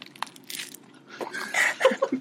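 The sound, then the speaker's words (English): Crunchy bites of pizza being eaten up close, several crisp crunches and chews that grow louder and denser toward the end, no talking. “here is your ASMR value”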